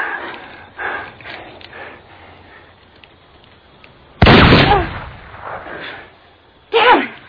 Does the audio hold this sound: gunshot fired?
yes